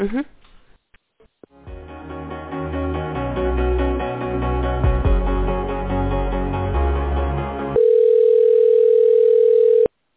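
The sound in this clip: Phone-line audio while a call is transferred: a few seconds of tinny, band-limited hold music gives way to a steady continuous tone that holds for about two seconds before cutting off.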